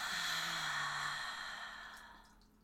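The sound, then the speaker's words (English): A deep breath drawn in and slowly released, heard as one long, soft, airy whoosh that holds steady and then fades gradually over a couple of seconds, with no talking. “So let's take a deep breath in and release it.”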